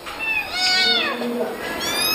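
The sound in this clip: A rescued cat meows several times while waiting to be fed goat milk. The cries are high, wavering and closely spaced, with little pause between them.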